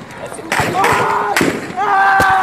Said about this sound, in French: Soudain, les manifestants se mettent à courir, visiblement effrayés. La confusion règne, puis des coups de feu retentissent.